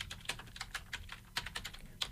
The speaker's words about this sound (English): Here, I'm just going to type it in to Spotify here because we were just doing a youth theme.